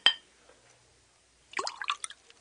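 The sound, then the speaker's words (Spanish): Wine is poured into a cup: a sharp tap at the start, a pause, then a brief burst of gurgling, splashing liquid. “Tenga esta copa, es mi copa. Sí, su majestad. Ahora llénela de vino.”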